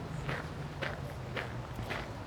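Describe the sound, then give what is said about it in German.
Footsteps walk toward a monument along a city avenue: four evenly spaced, soft steps over a steady background hiss and low hum. “Und ich sehe schon das Denkmal auf der Augusta-Anlage, da laufe ich jetzt noch hin.”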